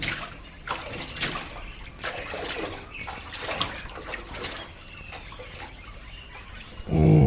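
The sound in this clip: Water splashes during an early-morning swim: a series of irregular, moderately loud splashes and strokes, ending in a brief louder burst.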